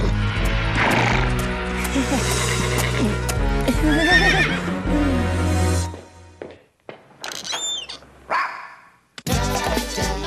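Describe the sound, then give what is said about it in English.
A horse neighs, a high, wavering whinny heard after several seconds of dense, busy sound and voices, followed by a few short, separate bursts of sound. “Nice horsey. Nice fella.”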